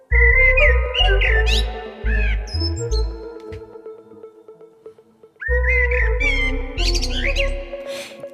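Eurasian blackbird song, clear fluting whistles and quick chirps in two loud bursts set over heavy low electronic tones, with a near-silent lull in the middle.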